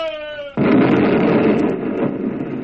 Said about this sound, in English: With the blast, a sheet of flame rose from the roof, and all at once the big warehouse caved into an inferno.